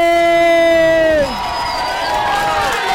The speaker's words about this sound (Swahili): Makofi ya BJ.